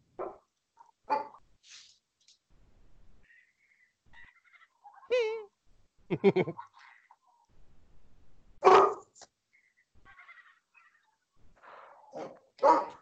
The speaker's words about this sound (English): My dog is barking at the television.